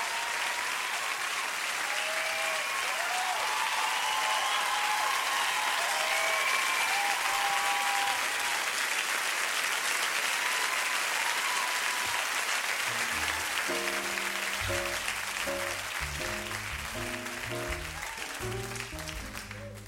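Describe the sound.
Sustained audience applause greets a singer taking the stage, with loud, even clapping and scattered whistles early on. Later, instrumental music begins beneath the applause, which gradually fades toward the end.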